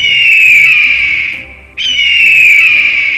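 A shrill hawk cry from far away: two long, piercing high calls, each sliding slightly downward in pitch. The first fades out and the second starts abruptly, loud and alone.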